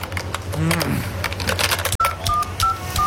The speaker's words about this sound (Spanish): Bueno, ahora marcarle a mi mamá con la tarjeta.